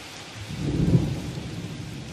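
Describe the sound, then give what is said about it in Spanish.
Thunder rumbles over a heavy rain shower during a lightning storm: a deep low roll swells loud near the middle, then eases back into the steady, dense hiss of pouring rain. “al sacarlo sonó un trueno. Se vio un relámpago y empezó un aguacero.”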